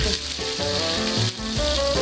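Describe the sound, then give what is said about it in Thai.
Garlic and shallots sizzle steadily in hot oil in a pan, fried before curry paste is added for a Thai coconut curry, a loud, continuous, unbroken hiss. “เราจะตั้งเตาเจียวกระเทียมหอมแดงกันก่อนค่ะ”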